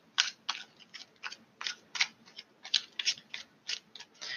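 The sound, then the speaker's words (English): Tarot cards being pulled from the deck give many short, crisp papery snaps and flicks in an irregular rhythm, some louder than others, with no talking over them. “Let's pull some more cards.”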